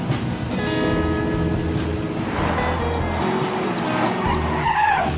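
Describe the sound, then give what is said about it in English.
A convertible car pulls over and stops at the roadside, its steady engine drone and road rumble running loud and unbroken, with tire noise on the surface and no voices. “House stops at the side of the road and looks at Lydia.”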